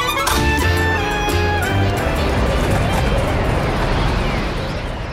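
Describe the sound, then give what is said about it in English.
A large fire burns in a Jerusalem backyard as leavened food is destroyed before Passover, giving a dense, steady roar with crackle that stays loud throughout; some tonal sounds ride over it in the opening seconds. “Wow, look at the size of this fire.”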